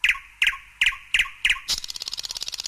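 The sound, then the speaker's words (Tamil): Birdsong: five sharp, high chirps at an even spacing, followed by a fast, high trill of many rapidly repeated notes. “ஒவ்வொரு பறவைக்கும் ஒரு குரல் உண்டு,”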